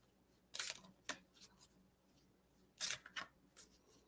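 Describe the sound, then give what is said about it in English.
Cards are pulled from a deck during a psychic card reading. Faint, crisp flicks and snaps come in two short clusters of a few quick strokes each. “Let me pull you a card.”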